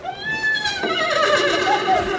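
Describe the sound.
A person imitates a horse whinny with a loud, wavering, high-pitched neigh that trembles and holds for about two seconds.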